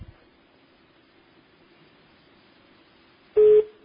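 Telephone busy tone after a caller's line disconnects: a single short, steady electronic beep follows a stretch of near silence over a faint, low line hum.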